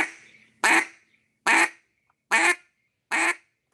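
Quacks from a single-reed power duck call, with each note stopped abruptly: four short, loud, evenly spaced honks with blunt cut-off ends, following a fading earlier note.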